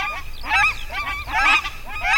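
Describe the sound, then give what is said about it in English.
Nene, the endangered Hawaiian goose, honking in three loud, nasal bursts of overlapping calls with quieter honks between them. “Most of the birds are common, although Hawaii's nene, a type of goose, is endangered.”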